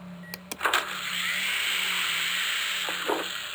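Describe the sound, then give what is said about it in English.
A bed corner drops after rope-linked levers on a wall are pulled. A few sharp clicks start a steady mechanical whir that lasts a couple of seconds, and it ends with a few more clicks. “That's it. You got the bed to drop one corner and part of the sheet shifted.”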